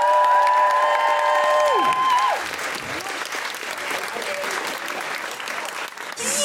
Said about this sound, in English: Put your hands together and make general woo-hooing noises for Zoe Lyons!